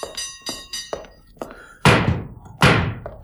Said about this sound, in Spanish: Alguien llama.